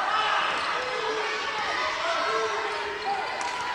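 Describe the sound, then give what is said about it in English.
A basketball is dribbled during a game, its bounces set under steady crowd noise and voices that keep the sound dense and level. “Number four dribbles it up top.”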